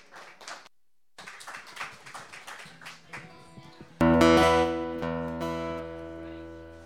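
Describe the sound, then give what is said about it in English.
Scattered clapping from an audience welcoming a singer-songwriter comes in uneven bursts, then gives way to a loud, sustained tonal chord that slowly fades. “Please give her a big welcome.”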